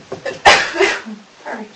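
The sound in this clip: A single loud, sharp sneeze bursting out between stretches of conversation, with voices speaking just before and after it.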